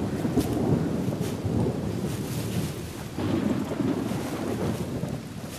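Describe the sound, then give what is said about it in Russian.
Rumbling thunder over steady rain in a lightning storm. A continuous loud wash of noise runs throughout, with low rumbles swelling at the start and again midway. “Молния, дождь.”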